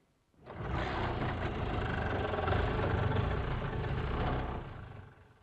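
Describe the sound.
A vehicle engine starts abruptly and settles into a steady, rumbling idle, then fades out near the end. There is no talk.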